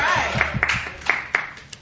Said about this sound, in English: That is not fake clap. That is real applause.